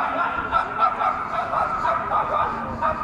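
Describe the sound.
Dog barking: a run of repeated barks and yips over a steady, noisy background, moderately loud throughout.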